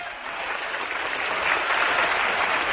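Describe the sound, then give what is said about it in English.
An audience applauds to welcome a guest, a dense, steady wash of clapping that swells slightly louder toward the end and carries on alone, without talk. “So how about a great big welcome for my good buddy, Red Savine.”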